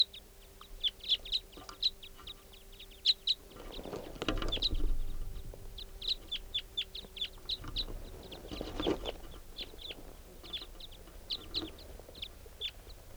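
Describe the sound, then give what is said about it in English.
Flight calls from a big flock of crossbills, including types 5 and 2, passing overhead: many short, sharp, high chips repeating in quick irregular bursts throughout, with no talk. “there's a big flock of crossbills flying over, including some type 5s and some type 2s.”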